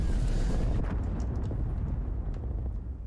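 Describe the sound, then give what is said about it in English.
A cruise missile explosion in a video game: a loud, deep rumbling boom that slowly decays, with a few sharp crackles in the tail. “Cruise missile inbound.”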